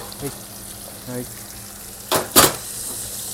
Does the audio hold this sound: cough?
no